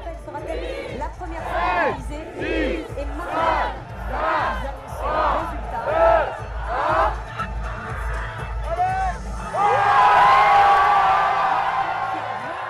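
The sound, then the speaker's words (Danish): A crowd in front of the Eiffel Tower counts down together in loud, evenly spaced chanted calls about a second apart, then erupts into sustained cheering with a high whistle cutting through the roar. “Så da de begyndte at tælle ned på TV'et, der talte de med foran Eiffeltårnet. Så de talte simpelthen alle sammen ned, som om det var sådan en slags raketaffyring? Ja, som om det var nytårsaften. Ja. Lad os lige høre, hvordan det lød.”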